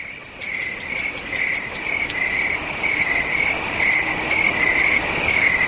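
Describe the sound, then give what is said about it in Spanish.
Crickets and other insects chirp at night on Peñagolosa mountain, forming a continuous, steady high-pitched trill that stays loud and unbroken throughout. “Aparecen los primeros sonidos de la noche, el viento, los insectos, algún sonido lejano y mucho espacio entre ellos.”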